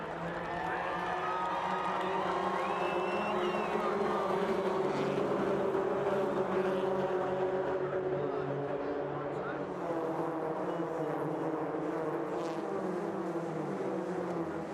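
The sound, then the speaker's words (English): Race cars roar at the start of a celebrity race amid crowd noise, a dense continuous rumble of engines and cheering that holds steady throughout, with voices heard over it. “Okay, well, the race starts, and it's such a thrill. Let's take a look.”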